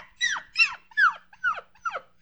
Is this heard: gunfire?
no